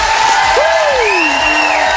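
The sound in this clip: Live audience cheering and applauding at an outdoor morning event in Val-Morel: a steady, dense wash of crowd noise that holds at an even loudness for about two seconds.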